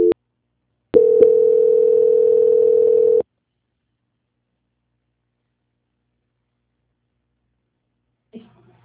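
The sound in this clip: Telephone tone during a call transfer: a brief beep, then a steady, mid-pitched tone held for about two seconds before cutting off into silence, with a short faint noise near the end.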